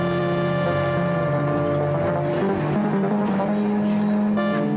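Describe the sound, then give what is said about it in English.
A car engine hums as the vehicle drives through heavy prison gates, a continuous droning sound with layered steady tones that waver slightly, loud throughout. “The heavy gates swing open, and the Doctor drives through into the prison. The gates close ominously behind them.”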